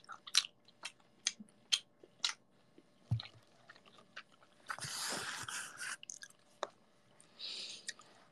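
Quiet, moist chewing of gyoza dumplings: many irregular bites, smacks and squishes, with a denser, wetter stretch partway through and no talking.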